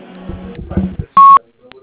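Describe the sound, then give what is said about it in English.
A recorded voice speaks briefly, then a single loud, steady voicemail beep sounds and cuts off sharply, followed by a faint blip. “At the tone, you can leave your message for Janice.”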